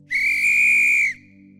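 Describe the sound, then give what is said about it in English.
A lifeguard's whistle gives one shrill, steady blast lasting about a second, loud and alone, then cuts off to leave only a faint low hum. “I'm preaching lifeguards tonight just for a few minutes. I brought my whistle.”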